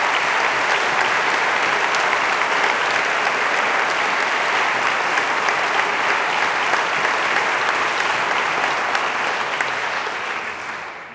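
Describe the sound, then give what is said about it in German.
Applause from an audience following a speech on citizen participation and democracy, a thick, even wash of many hands clapping that holds steady for several seconds before tapering off at the very end. “Applaus”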